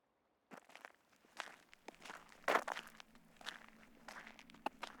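Footsteps descend a long set of stairs, with many uneven soft treads and scuffs at a walking pace, fairly faint and with no other sound.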